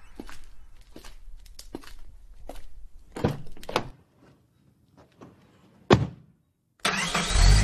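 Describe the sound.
A car engine starts, catching abruptly and roaring loudly to life at the very end, after a run of scattered clicks and thumps and a short, quiet pause.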